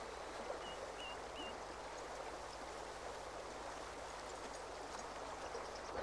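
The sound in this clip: River current flowing, a steady, soft, unbroken rushing wash of water that holds an even level throughout, with no other sounds.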